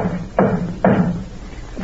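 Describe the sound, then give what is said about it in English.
Knocking at a door, heard as a few dull, muffled thuds that rise out of a constant hiss, with no voices. “Nanny, I told you. It's just somebody at the door.”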